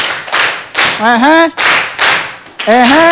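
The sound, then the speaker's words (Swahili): Audience clapping for a child at a school, loud rhythmic bursts of group clapping alternating with short stretches of voices calling out together. “Jamani, tumpigie makofi mtoto mzuri.”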